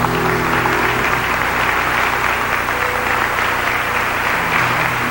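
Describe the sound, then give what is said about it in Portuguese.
An audience at a church service applauds in a dense, steady wash of clapping, loud and continuous from start to finish with no voices standing out. “Pode aplaudir para valer.”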